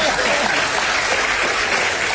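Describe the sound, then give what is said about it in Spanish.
Audience applause at a live comedy show: loud, dense clapping from many hands. It runs as an unbroken, even roar for the whole stretch, with no pause or build. “¡Vamos! ¡Que aplauden!”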